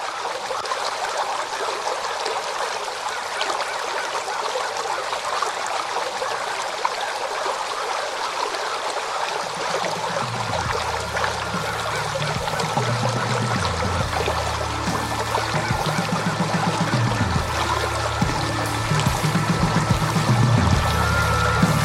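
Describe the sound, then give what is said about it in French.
A small stream of water flows with a steady, full, hissing rush. Partway through, a low, droning tonal layer joins in underneath. “ce titre pour conserver ce fil rouge représenté par un petit ruisseau que l'on retrouve également par la suite”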